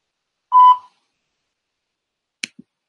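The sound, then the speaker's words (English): A single short, clear, mid-pitched answering machine beep sounds alone, followed after a pause by two faint, quick clicks. “at the beep. Please leave a message.”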